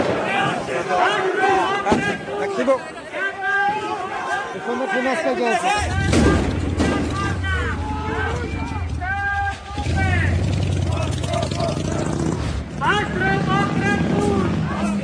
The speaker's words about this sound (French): Et là, on entend le bruit de vitres qui sont brisées à coups de masse. C'est comme d'habitude des banques. C'est le bruit de marbre qui sont cassés pour faire des projectiles contre les policiers.